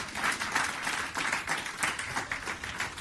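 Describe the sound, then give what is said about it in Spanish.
Congregation applause in a church sermon, a steady wash of many hands clapping with a loose rhythmic pulse, moderately loud throughout. “Denle un aplauso al Señor por eso.”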